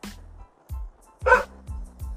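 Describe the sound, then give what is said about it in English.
A dog barking in a few short, fairly faint bursts spaced irregularly, with one broader, noisier bark near the middle and quiet gaps between. “I just noticed that this mic is picking up all the dog's noise. That's pretty cool. I'm sorry for the barking dog”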